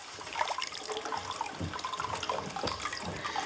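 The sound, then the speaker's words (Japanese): Hot spring water flows straight from the source into a free-flowing, slightly lukewarm bath. It makes a faint, continuous splashing trickle with soft bubbling and no pauses. “かけ流しですって、こう源泉ね。ちょっとぬるめになってますが、このねとろっとしていますよ、ちょっとお湯がね、いいですね。”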